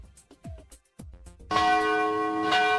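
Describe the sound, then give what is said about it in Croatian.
The bells of the cathedral in Sarajevo ring for its feast day. After a few short, quieter sounds, they break into a loud, sustained peal of overlapping, resonant tones that lasts to the end. “Svečana zvona Saborne crkve rođenja Presvete Bogorodice u Sarajevu sabrala su vjernike da u zajedničkoj molitvi proslade zaštitnicu ovog hrama.”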